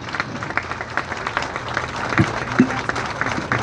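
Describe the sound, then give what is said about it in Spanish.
Applause for a work team from a crowd: dense, steady clapping that stays even throughout with no break. “Y por eso les quiero pedir un fuerte aplauso para ustedes, que son este gran equipo de trabajo.”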